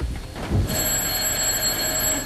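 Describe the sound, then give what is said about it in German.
A telephone rings at the start of a radio play, a bright, sustained ringing that sets in after a short moment and continues steadily over a dense, noisy hiss. “Gerade schon am Anfang des Stücks läutet das Telefon.”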